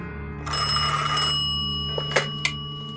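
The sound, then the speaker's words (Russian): A telephone bell rings once as a bright, sustained metallic ring that slowly fades, followed by two short clicks near the end. “в квартире Андрея Кравца время от времени стали раздаваться странные телефонные звонки”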